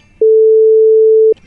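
A telephone line tone sounds after a number is dialed by accident: one loud, steady pure tone that holds for about a second and cuts off abruptly.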